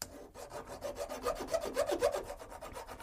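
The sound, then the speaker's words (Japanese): Rapid, rhythmic rasping of an ordinary hand file cutting aluminium, many short scraping strokes in steady succession, with no voices. “ちょっと今普通のヤスリを使って切ってみたいと思いますけど非常に目詰まりがしやすいって言われてるちょっとアルミニウムで削ってみたいと思います、はい、削ってみますよ”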